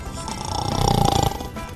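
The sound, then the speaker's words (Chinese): A snore from a cartoon bear dozing in a hot-air balloon basket: one long, throaty inhale with a rapid rattling flutter that swells in the middle and eases off, moderately loud over a low hum. “安琪熊话还没说完呢，就睡着还打呼了呢。”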